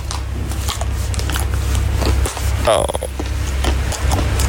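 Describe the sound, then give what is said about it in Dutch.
Noisy eating from someone seated close by in a train's quiet compartment: wet chewing and smacking mouth sounds over a steady low rumble of the moving train, continuing throughout. “Ja, probeer dan nog maar eens een keertje te slapen als er iemand zo naast je zit te eten.”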